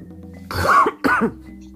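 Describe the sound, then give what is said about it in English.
Two harsh, choking coughs come in quick succession, loud and throaty, with quiet before and after. “My. I'm sorry. I'm choking thinking about your stupid Cowboys. Drink some Pepsi.”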